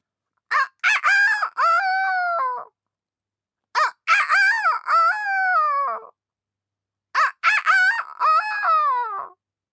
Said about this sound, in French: Et Jojo entend le coq chanter dès qu'un rayon de soleil frôle ses plumes